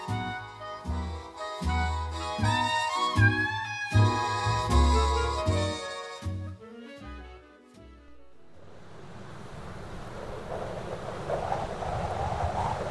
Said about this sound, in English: Boy, that wind is sure picking up. It's almost like we're expecting some wintry weather.